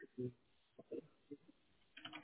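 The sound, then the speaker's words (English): Faint typing on a computer keyboard makes a few soft, quick clicks. The clicks are mixed with quiet talking. “Just a moment. I need to type your answer.”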